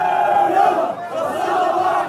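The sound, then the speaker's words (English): About 100 protesters in a street in Nabatieh, Lebanon, raise their voices together, making a loud and continuous chanting roar that barely dips for two seconds. “About 100 protesters crowd a street that usually sees religious parades and Hezbollah marches.”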